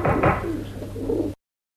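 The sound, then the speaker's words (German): Soft, low cooing of a white dove being fed by a man standing on canisters at an open hatch, a continuous murmur with some rustle that cuts off abruptly. “Eisenring an der offenen Luke, Er steht auf den Kanistern und füttert gerade eine weiße Taube.”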